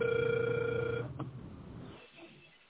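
A telephone ringback tone while dialing: one steady, mid-pitched tone lasting about a second, then it cuts off, leaving faint line hiss.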